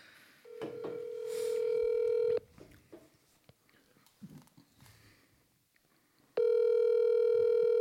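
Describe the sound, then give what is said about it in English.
Telephone ringing tones as a call is dialled: a long, steady, even-pitched tone, a stretch of faint rustling and small noises, then the same tone returning loudly and holding to the end. “This is the last phone call I'm going to make.”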